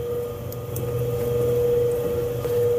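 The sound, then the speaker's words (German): A ventilation blower runs four floors underground in an old building's lowest level, giving a steady droning roar with a constant tonal hum and no breaks. “Schon wieder das Gebläse.”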